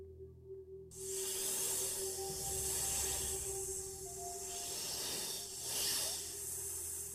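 Hissing and rustling of a green snake slithering in: after a second of near quiet, a sudden loud, breathy hiss sets in and rises and swells over several seconds above a faint steady low tone.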